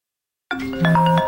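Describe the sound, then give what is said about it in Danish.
A telephone rings unanswered: after half a second of silence, a single electronic two-tone ring sounds, bright and moderately loud, its pitch shifting partway through. “Det her er lyden af en kunde, der ringer forgæves, og som nu finder nummeret på en konkurrent.”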